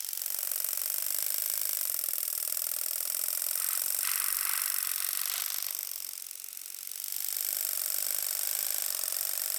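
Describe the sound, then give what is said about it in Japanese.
Close shaving of hair beside a customer's ear gives a steady, scratchy mechanical rasp with a buzzy, ratchet-like texture. It briefly softens near the end, then resumes, with no voices. “こんなの剃る必要は全然ないんですけどね。頭部毛には見えませんし。”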